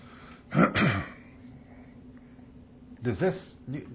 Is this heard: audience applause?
no